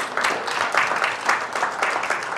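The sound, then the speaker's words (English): An audience applauds during a church sermon, with dense, lively clapping that keeps an even level for the short stretch without any talk over it. “Yeah, you can clap about that.”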